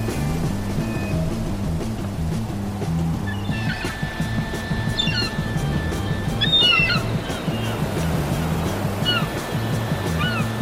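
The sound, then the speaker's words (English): Seagulls call by the sea near land, a few short high cries scattered through the second half, faint above a steady, pulsing low rumble that runs throughout. “Seagulls? I have to be close to land.”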